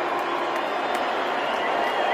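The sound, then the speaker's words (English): A live audience booing a guest on stage: a dense, even wash of crowd noise that holds at a steady level from start to finish with no breaks. “More boos. It's so awkward.”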